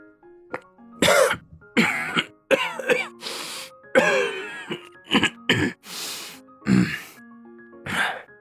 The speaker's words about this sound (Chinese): 他剧烈地咳嗽着